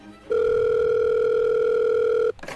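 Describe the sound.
Telephone line tone while an operator puts a call through: one steady, loud tone holds for about two seconds, then cuts off and is followed by a brief noise.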